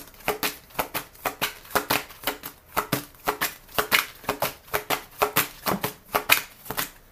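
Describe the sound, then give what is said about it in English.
Papery handling of cards drawn from a deck during a card reading: many quick, regular rustles and soft snaps in a steady rhythm, fairly faint, with no talking. “All right, let me take one more card right quick.”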